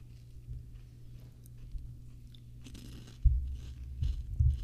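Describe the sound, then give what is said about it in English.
Someone crunches on a cheap, knockoff-brand, queso-flavoured chip: soft, faint chewing at first, then several louder crisp crunches of biting and munching toward the end. “You know what it tastes like? A cheap Dorito, like a knockoff brand.”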